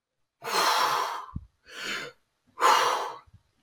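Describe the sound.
A voice imitates gasping breaths as if struggling to breathe while swimming: three breathy rushes of forced air, the first and last long and strong, the middle one shorter and softer, with no words.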